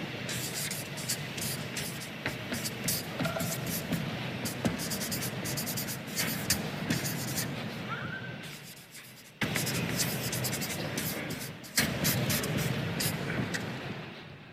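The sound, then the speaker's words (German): Writing a thesis on a board gives steady scratchy strokes in a long continuous run, with one brief pause partway and then more strokes. “Ich habe jetzt eine etwas provokative These und die schreibe ich erst hin und dann sage ich sie.”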